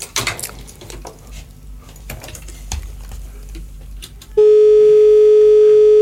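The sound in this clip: A steady, loud telephone line tone cuts in and holds unbroken during a phone line test, following a stretch of scattered clattering and tapping noises.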